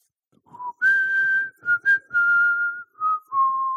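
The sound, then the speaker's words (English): Someone whistles a tune alone: a short melody of clear, pure notes, some held and some quick. It starts on a low note, jumps higher, then drifts gradually back down by the end. “and that's me whistling. I'm actually a good whistler.”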